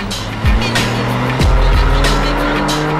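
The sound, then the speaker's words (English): A red car overtaking at speed and driving too closely, its engine roaring loud and steady throughout, with a couple of abrupt drops in pitch and a hissing tire noise underneath. “A red car overtakes him at speed, driving too closely.”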